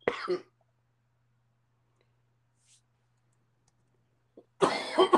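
Coughing from someone who has choked: a short burst of harsh coughs at the start, a long quiet pause, then a louder, longer coughing fit at the end.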